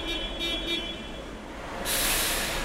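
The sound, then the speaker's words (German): Bus from Moscow arriving at Breslauer Platz in Cologne: a broad, steady rumble of traffic and engine, joined near the end by a louder, bright hiss like released air brakes. “Der Bus aus Moskau trifft endlich ein.”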